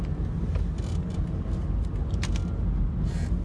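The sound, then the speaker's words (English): Road traffic noise, a steady low rumble of passing vehicles that holds an even, constant level throughout without voices. “sorry, I hate this traffic. Sucks.”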